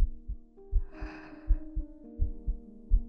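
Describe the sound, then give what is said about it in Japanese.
A pounding heartbeat of steady, low double thumps, about four beats in three seconds, with soft sustained tones and a brief airy breath above them. “ドキドキする。”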